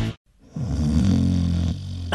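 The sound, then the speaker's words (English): A single drawn-out snore, a low, rough, buzzing rumble that follows a brief silence and holds steady for over a second, fairly loud and alone with no talk. “Seriously? Again? It's not just the snorer losing sleep.”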